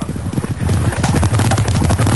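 Horses galloping, their hooves clip-clopping in a loud, rapid, continuous patter of heavy thuds that keeps a steady driving rhythm throughout.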